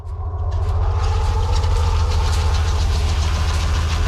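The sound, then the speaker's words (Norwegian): Steady engine drone from a Swedish tracked vehicle driving through the snowy Norwegian mountains in midwinter cold, a deep, loud, rumbling hum that swells in quickly and then holds constant with no voices. “William Freyhov Sande gir deg historien om en britisk superstjerne I en svensk beltevogn I den norske fjellheimen.”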